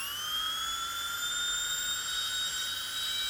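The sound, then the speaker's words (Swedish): A Belgian dentist's drill gives off a piercing high whine with several layered tones, held steady for about three seconds over a faint background hiss. “Och det mest uppskattade YouTube-ljudet, det är en belgisk tandläkarborr.”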